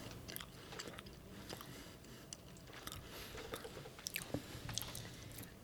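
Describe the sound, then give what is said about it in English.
Someone bites into and chews a Wendy's hash brown, making faint, soft crisp crunches and squishy chewing clicks at irregular intervals, with no talk over them. “I'm giving it a bite.”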